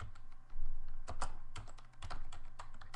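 Typing on a computer keyboard: many quick, irregular keystroke clicks in uneven bursts, moderately loud, with brief pauses between runs of keys.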